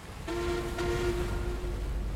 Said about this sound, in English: USS Delphi sounded two blasts on her whistle to signal the turn, then gracefully arced left.